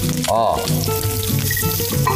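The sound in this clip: Garlic cloves, ginger and onion fry in oil in a shallow flat-bottomed clay pot over low heat, giving a loud, steady crackling sizzle throughout with faint stirring.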